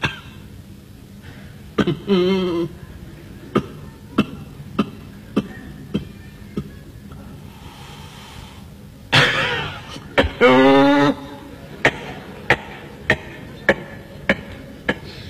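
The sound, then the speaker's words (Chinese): A voice imitates a sick person groaning and coughing while others eat, with drawn-out moaning tones among many short, sharp cough-like bursts in a steady, repeated rhythm. “连哼喽，带咳嗽。 嗯，那边吃饭，这边咳嗽。”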